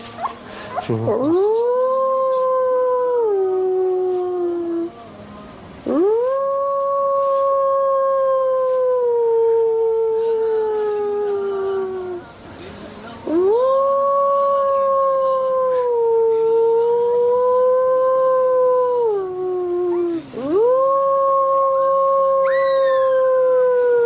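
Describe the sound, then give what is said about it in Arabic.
Howling from a man teaching a young wolf to howl: four long, loud calls, each rising sharply, holding a wavering tone, then sagging, separated by brief pauses. “سبحان الله العظيم، إنسان بيعلم الذئب كيف يعوي، بيعلمه إزاي.”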